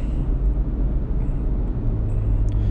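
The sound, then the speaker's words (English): Engine rumble inside a moving car, a constant low drone with steady road noise and no talking. “I'm podcasting while driving. I'm probably breaking 10 laws. I might wreck and die right now”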